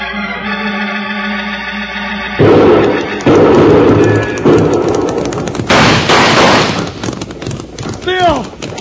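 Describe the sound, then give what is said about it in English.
Rifle gunfire among rocks at night: several sharp, loud shots scattered irregularly through a noisy, busy stretch, with people talking over the action. “Watch the rifle flash. Now they've stopped shooting.”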